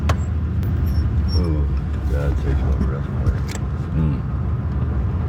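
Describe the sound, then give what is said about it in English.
Car engine rumble as the vehicle turns off a main road and drives a short way up; a steady low drone runs throughout, with people talking over it. “We turn off the main road and drive up a little bit.”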